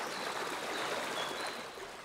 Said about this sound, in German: Der Quellbach stürzt über kleine Wasserfälle zu Tal.